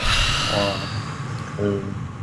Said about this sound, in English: Now, if everyone would breathe in, 2, 3, 4, and out.